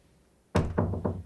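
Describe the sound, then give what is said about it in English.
A bedroom door being closed: a sudden dull thump followed by two more softer, evenly spaced knocks, each low and woody, with a quiet background before the first hit. “comes in and closes the door behind her.”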